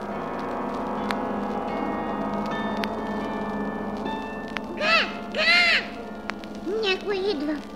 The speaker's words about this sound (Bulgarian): Синя врана. Трябва да бързам.